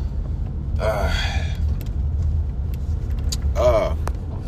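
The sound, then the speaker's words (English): Low, steady road rumble of a car being driven, continuous throughout, with a voice cutting in briefly twice over the engine and tire noise. “I'm driving right now.”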